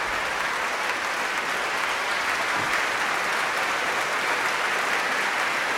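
A concert audience applauds a trio returning to the stage after Beethoven's Triple Concerto in C major: dense, sustained clapping, loud and even from start to finish.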